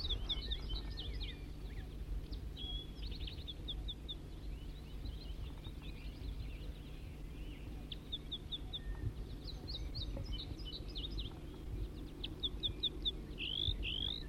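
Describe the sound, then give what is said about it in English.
A wild bird sings in fairly faint bursts of high, rapid chirps and trills that recur at intervals over a low, steady hum and background hiss. “Start recording the wild bird now in song.”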